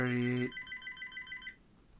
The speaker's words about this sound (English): Telephone ringing. How do I mute it?